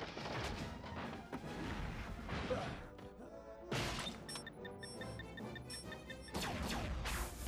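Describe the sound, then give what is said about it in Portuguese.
A cartoon bomb is kicked and activated in Spider-Man: The Animated Series, with several sharp crash-like bursts followed by a rapid series of high electronic beeps between further impacts. “Caramba, o cara ativou a bomba dando um chute nela.”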